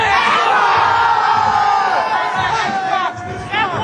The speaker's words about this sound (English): And I mean a lot of excited gamers, New York gamers. They've all been primed with quotes. They've all been pumped with the hyperbole of the Xbox marketing suite.